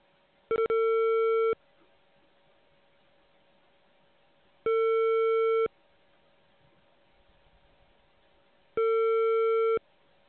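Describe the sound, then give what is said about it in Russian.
Telephone ringback tone while a call is being placed: three steady, mid-pitched beeps, each about a second long, separated by longer silences, with no voices. “Начинаем звонить абоненту. Ожидайте соединения.”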